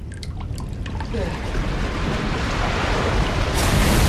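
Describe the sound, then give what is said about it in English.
Water runs steadily into a bathroom sink as it slowly fills, making a continuous broad rushing hiss that grows gradually louder, with no talk over it. “He looks down at the slowly filling sink.”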